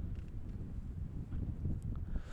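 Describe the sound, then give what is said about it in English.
Wind gusting upwards of 20 miles an hour sweeps across a baseball field during a Marysville versus Marine City game, a quiet, steady low buffeting rumble with no talk. “So wind again picking up to right field upwards of 20 miles an hour.”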